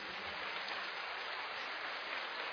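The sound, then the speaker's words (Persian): Applause from many hands clapping together, a dense, continuous, even patter that holds at one level throughout, with no voices. “بیا تا دست خالی، بیا تا دست خالی، یک کف مرتب بزن”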